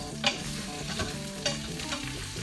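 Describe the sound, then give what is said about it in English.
Stirring a pot of frying rice: a few scraping strokes across the bottom of the pot over a constant soft sizzle, with no voices. “Stir the bottom of the pot a little bit. And add in the rice.”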